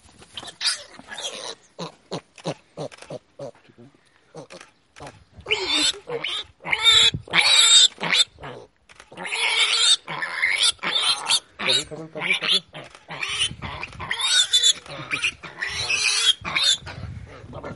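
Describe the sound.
Wild boar piglets grunting and shrilly squealing when picked up, in agitated bursts that come and go, with people talking over and between the cries.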